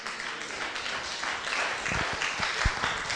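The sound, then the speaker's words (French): A crowd at a religious gathering applauds, a dense, steady clatter of many hands clapping at moderate loudness for a few seconds, with no voices standing out. “Est-ce qu'on peut acclamer pour ça?”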